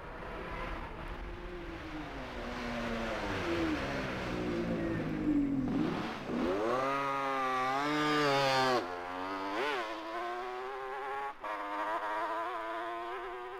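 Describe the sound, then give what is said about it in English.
A BSA motorcycle engine in a road race, taking the slow Ramsey hairpin bend. A loud, buzzing note drops as the bike slows for the corner, then climbs steeply as it accelerates away, breaking off and rising again at two gear changes. “And for British bike enthusiasts, the sound of Malcolm Lucas's BSA at Ramsey Hairpin.”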